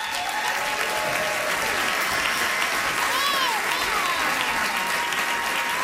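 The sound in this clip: An audience gives a guest storyteller and comedian sustained, loud, dense applause. A few whoops and whistles rise over the clapping midway through.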